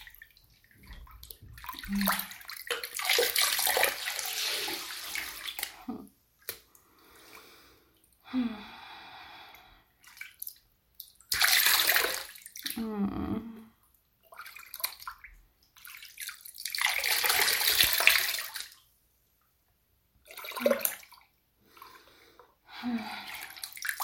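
Bathwater splashes and sloshes while someone is washed in a bath, coming in irregular bursts of several seconds separated by quiet pauses, with occasional drips.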